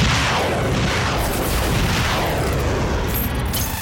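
Science-fiction weapons opening fire in an audio drama: a continuous loud barrage of booming, rumbling blasts laced with sweeping whooshes, dense and unbroken from start to finish.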